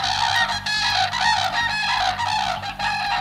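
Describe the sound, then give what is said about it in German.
Common cranes call from a reservoir where thousands gather. Many loud, trumpeting bugles overlap in repeated bursts over a steady low hum. “Also das ist welcher Vogel? Der Kranich? Ja!”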